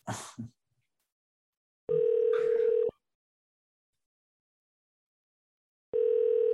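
A telephone rings unanswered. After a brief burst of noise, a steady ring tone sounds once, then silence follows, then a second ring begins and is cut off.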